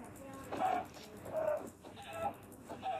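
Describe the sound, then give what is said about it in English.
A chicken clucks in the video game Bastion, giving a few short, tonal clucks spaced about a second apart. “Oh, chicken. Please drop your feather.”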